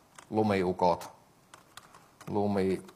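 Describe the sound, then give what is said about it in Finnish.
Typing on a computer keyboard in the Notepad++ editor, with a few faint key clicks between two stretches of talk that largely cover the keystrokes. “mä nyt kirjoitan vaikka sillä Notepad++:lla, haluan sinne kirjoittaa tuon luokan”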